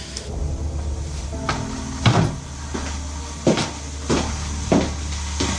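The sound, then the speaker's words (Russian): A door is pulled shut: a few sharp wooden knocks and clicks over a steady low hum, with no voices. “Извините, я дверь прикрою?”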